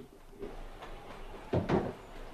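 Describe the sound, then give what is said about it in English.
Household items being put away in a cupboard in a small room: a few soft knocks and thuds over low background noise, with two louder bumps close together near the end. “He picks up a couple of things and puts them away in the cupboard.”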